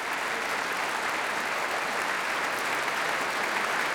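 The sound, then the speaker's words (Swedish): Concert audience applauding the orchestra and vocal soloists after a choral-orchestral performance, a steady, even wash of many hands clapping at moderate level without breaks. “tar emot applåder och så gör också kvällens solister.”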